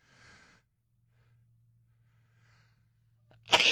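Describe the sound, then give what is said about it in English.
A single sharp sneeze from a person with a chest cold: a faint breath, then near silence, then one loud, sudden burst at the very end. “I'm going to sneeze.”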